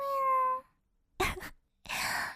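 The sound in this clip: A pet cat gives one drawn-out, harmonic meow, followed by two short bursts of breathy, noisy sound after a pause; no people talk.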